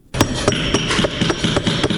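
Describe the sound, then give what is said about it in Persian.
A hammer carefully strikes a ceramic tile in a tile-making workshop in Herat, giving many sharp, regular taps in a steady rhythm over a constant background hiss. “چکش را به دقت بر کاشی 8 زل ای فرود می آورد.”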